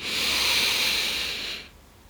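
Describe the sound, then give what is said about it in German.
A deep inhalation during a guided breathing exercise: one long, steady airy hiss of breath drawn in for about a second and a half, then cutting off into near silence. “dann möchte ich dich dazu einladen, dass du einmal ganz, ganz tief mit mir gemeinsam einatmest”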